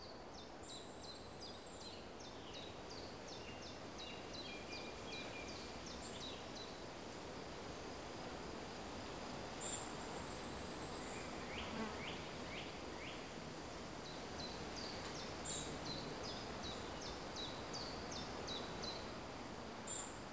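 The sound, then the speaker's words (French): Summer forest ambience in a wooded mountain massif. A faint, steady rustling hiss carries scattered bird chirps and short rapid trills that recur throughout, with soft insect buzzing in the background. “Ambiance forestière pour cette petite carte postale sonore estivale.”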